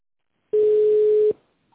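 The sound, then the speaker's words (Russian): A steady telephone line tone sounds while a caller waits to be connected to an operator after an automated menu: one even, mid-pitched hum of just under a second that starts and stops abruptly, alone with no voices. “Для соединения с оператором нажмите 3 или оставайтесь на линии.”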